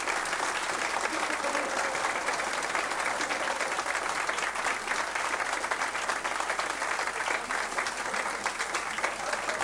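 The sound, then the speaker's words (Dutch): Audience applause during a show: a dense, sustained wash of clapping that holds at an even level throughout without a break. “af en toe hebben we wel eens dat de mensen gewoon applaus tussendoor krijgen. Maar ja, daar kan je niet om geschooien. Dat vind ik niet leuk. Maar het gebeurt wel eens dat ze... Hier, daar heb ik weer. Zet nog door, joh. Het zet nog door.”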